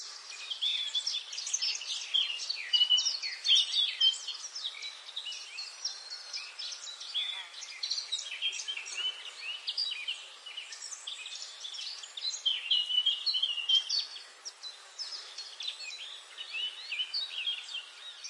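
Night birds calling in a forest: a continuous bed of high, thin chirps and trills, many overlapping calls with a slightly insect-like buzz, steady in level throughout with small swells.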